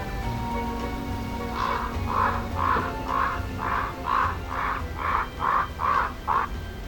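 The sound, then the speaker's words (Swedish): A raven calls over an empty farmyard in light drizzle and a little wind, giving a long series of evenly spaced, hoarse croaks that start after a brief pause and repeat steadily against a low, quiet background. “Det duggregnar, blåser lite. En korp cirklar.”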